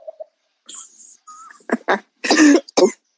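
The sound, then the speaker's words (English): Harsh coughing from a person in the background. A few short rough bursts build into a longer hacking fit and end with one more cough, after some faint higher sounds at the start. “My first thing is your person in the background okay? They choking. That cough in the background concerned me.”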